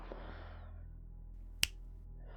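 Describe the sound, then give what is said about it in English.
A single crisp finger snap, sharp and very brief, cutting through a faint low hum in an otherwise quiet moment. “Every finger snap,”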